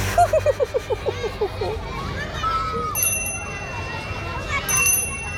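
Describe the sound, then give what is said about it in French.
A small bell rings in a rapid series of bright strikes to end school recess, followed by the busy hubbub of children playing and calling out in the playground. “La clochette vient de sonner. La récréation est terminée.”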